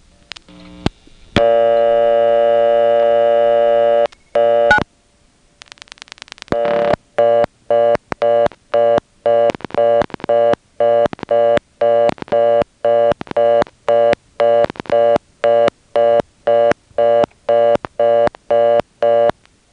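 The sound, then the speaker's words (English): A telephone reorder tone plays on a line with a digit-absorbing first selector after dialing 9, while another caller dials over it: a steady tone, then a burst of rapid clicks, then a long run of evenly pulsed, loud beeps. “Here's what happens when you dial 9, and if you listen carefully, you'll hear another customer coming in on top of the reorder and dialing on it.”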